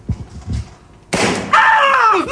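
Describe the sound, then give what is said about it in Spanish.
A simulated gunshot bursts from a shooting-simulator pistol whose real barrel is replaced by a CO2-powered firing device. One sharp, loud pop is followed by continuing noise with brighter, ringing tones layered over it. “lo que se hace es cambiar el cañón por un dispositivo que va a simular el disparo. ¿El cargador qué tiene? El cargador tiene dióxido de carbono”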